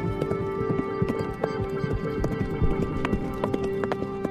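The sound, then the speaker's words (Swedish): Horse hooves clip-clop steadily during a ride. The rapid, even patter of hoofbeats is fairly loud and continuous, with a faint sustained tone underneath. “Idag är Maja och jag ute och rider på min trähäst Silver.”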